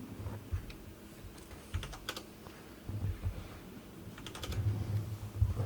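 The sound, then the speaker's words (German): Keys clatter on a computer keyboard as a dice roll command is typed into a chat, in a few irregular clusters of quick, fairly faint keystrokes. “Du schreibst /roll D20 in den Chat.”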